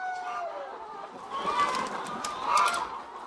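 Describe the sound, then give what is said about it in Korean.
Chickens cluck on a poultry farm that began with 40 hens, a soft murmur of clucks and calls that rises into two louder bursts. “처음에 40마리의 닭으로 양계장을 시작한 것이 규모가 이렇게나 커졌답니다.”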